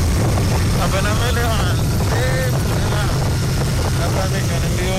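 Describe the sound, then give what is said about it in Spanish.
Motorcycle ride noise heard through a rider's helmet with the visor down: a loud, steady rush of wind and engine roar, with a voice talking over it. “Se preguntarán por qué se escucha así. Él va en moto, va en casco, va con su visera y tal, y por eso se escucha de esta forma.”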